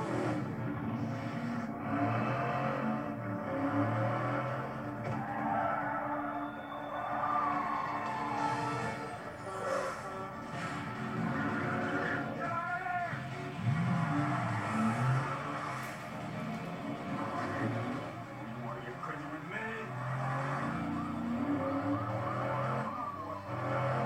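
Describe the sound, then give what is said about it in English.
Roaring car engines and squealing, skidding tires from a movie car chase that runs backwards through a parking garage and out onto a multi-lane road. The sound is dense and continuous, with repeated surges of engine noise and tire squeal. “The driving in this movie is quite done quite well. It's chasing, so good.”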